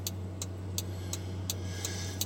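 A small timer ticks seven times in an even, crisp rhythm over a constant low hum.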